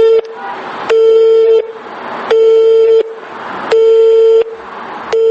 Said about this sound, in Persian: برای دقیق نمودن علت های توقیف کنسرت به سه شماره که در این تابلوها تلفن برای معلومات نوشته بودند سیم زدیم. دو رقم اول چنین پیغام داد